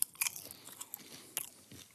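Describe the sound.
Popcorn is chewed with a full mouth. Quiet, crisp crunches and bites come at an irregular rhythm, with small clicks between them.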